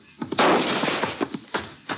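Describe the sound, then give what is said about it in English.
Gunshots ring out in a canyon in the dark: a few sharp, muffled cracks, one louder burst near the start and smaller reports after it, spread unevenly over two seconds. “Now, who in the thunder are you shooting at?”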